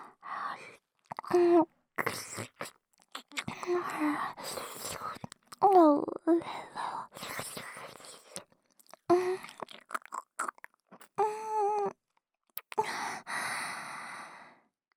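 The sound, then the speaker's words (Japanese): Slow, wet licking along a neck comes in intermittent moist smacks and slurps, interspersed with breathy sighs, whispers and brief moaning sounds, all soft and close. “首に道ができていくみたいで楽しいかも。こっちも舐めちゃおーっと。”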